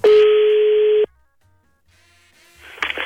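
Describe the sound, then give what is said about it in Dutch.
A steady telephone line tone sounds for about a second as a call is placed to a number. Near silence follows, then faint noise and a brief burst near the end. “Dus even bellen met Soest.”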